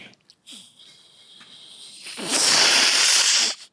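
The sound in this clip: A human voice imitates a snake's hiss: a few faint breathy sounds come first, then one loud, sustained hiss of about a second cuts off sharply.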